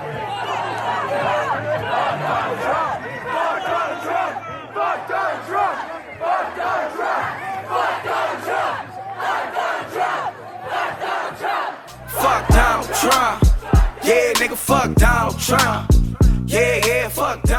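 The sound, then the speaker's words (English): A massive crowd of students on 13th Avenue on a campus on election night shouts, chants and cheers in loud surging waves, breaking into sharper, louder bursts near the end. “That sound you just heard was recorded last night, election night, right out on 13th Avenue here on campus. A massive group of students were out on the streets soon after it was announced the results of the election.”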